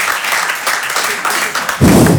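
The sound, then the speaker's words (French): Audience applause answering a question put to the room, a steady patter of many hands clapping that suddenly swells louder and fuller near the end. “Peut-être il y a des gens plus optimistes ce soir, par applaudissement, sincèrement. Qui pense que ça va bien se passer pour nous dans le futur?”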